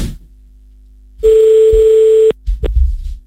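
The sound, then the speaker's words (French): A single steady ringing tone on an outgoing telephone call, loud and unbroken for about a second, followed by a few faint low knocks. “Mais oui, c'est moi qui appelle. Ça va répondre.”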